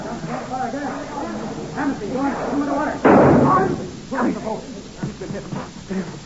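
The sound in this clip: A single gunshot fired during a shipboard struggle: one sudden loud blast with a short rough tail that cuts through tense, urgent talking voices.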